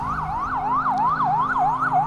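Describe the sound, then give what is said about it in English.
An ambulance siren on Broadway, a city street, wails in quick, regular rising-and-falling sweeps as the emergency vehicle approaches, loud and clear over a low traffic rumble. “Emergency vehicles coming toward us. It's an ambulance, so no trouble.”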